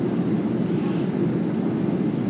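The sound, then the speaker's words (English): Steady, broad roar of an airplane cabin as the aircraft descends to land. The low rumble and wind-like rush hold at a constant level throughout, with no voices. “But now, my ears are popping. It looks like we're landing.”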